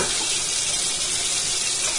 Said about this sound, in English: So I did one cup of rice, that's another cup of water.